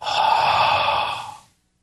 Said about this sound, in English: See that breath? That exhale right there? That's carbon dioxide.